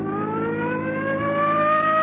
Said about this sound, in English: Come on, hit your siren.